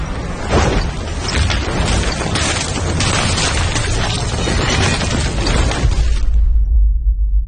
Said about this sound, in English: The flashlight cracks and shatters.